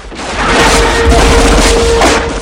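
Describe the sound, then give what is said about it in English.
Gunfire from two gunmen who pop up and open fire, a loud, dense volley of booming shots blending into one sustained burst. “Two gunmen pop up and open fire.”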